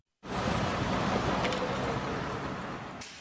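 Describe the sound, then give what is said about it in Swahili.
Steady street traffic in Lagos, Nigeria, on a congested city road: a dense, continuous roar of engines and tyres that starts abruptly and holds at an even level throughout. “Hapa ni Lagos, mji mkuu wa kibiashara wa Nigeria. Ukuaji wa uchumi umesababisha mji huu kukua kwa haraka. Majengo marefu, biashara mbalimbali, vioo vikuu, lakini idadi kubwa ya watu inamaanisha pia msongamano wa magari”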